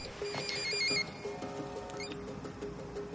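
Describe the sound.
A mobile phone rings with an electronic ringtone, a repeating pattern of bright tones over a low, busy background.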